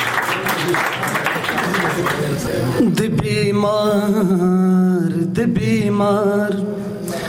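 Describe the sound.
An audience applauds a poet at a poetry recital, dense clapping filling the first few seconds before a voice takes over and the applause fades beneath it.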